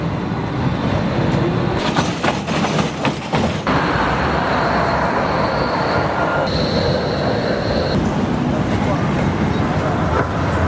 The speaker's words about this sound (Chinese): 来到了车站，乘坐一个叫 M10 的，大概经过6站，我们就可以来到柏林竞技场。其实柏林的公共交通是非常发达的